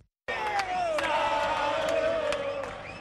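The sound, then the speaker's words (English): Argentine football fans sing in unison for Diego Maradona, a loud, sustained crowd chant with a wavering melodic line that begins abruptly and eases off slightly at the close. “In Argentina, fans of football icon Diego Maradona serenade.”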